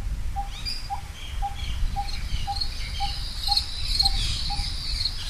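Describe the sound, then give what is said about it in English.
Crickets chirping in the late evening: many short, evenly spaced chirps at a steady pace of about two per second, with fainter higher chirps and trills over a low, rumbling background. “Always there are the crickets, with their high-tuned chirp and buzz forming the backdrop to all the rest.”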